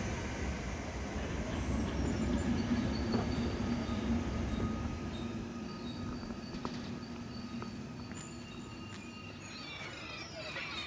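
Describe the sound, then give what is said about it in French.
A train pulls into Halkalı station in the suburbs of Istanbul with a loud, steady rumble of wheels on rails. Thin, high squealing tones run over the rumble, which eases slightly in the later part. “le train maintenant n'arrive pas au centre d'Istanbul mais il arrive à la gare de Halkali”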